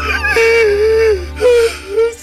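A grieving man cries in loud, drawn-out wails with a wavering pitch, coming in two main stretches over a steady sustained background.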